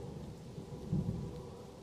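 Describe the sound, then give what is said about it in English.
Thunder and rain from a stormy scene in a video game: a faint, continuous low rumble that swells briefly near the middle, with no voices. “It's getting kind of turning kind of stormy.”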